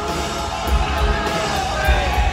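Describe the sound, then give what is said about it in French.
A concert crowd yells and cheers at a rock show, a loud continuous roar of shouts and whoops with low thumping music underneath. “Et on sent que le public est à fond, mais grave.”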